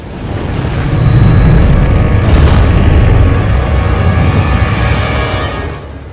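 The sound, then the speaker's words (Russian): Heavy explosive booming as landing shuttles crash into an invisible force field in a film scene: a loud, sustained rumble with one sharper burst partway through, then a fade at the end. “Сэм и Баки смотрят, как десантные челноки падают на планету и взрываются, врезавшись в невидимое силовое поле над Вакандой.”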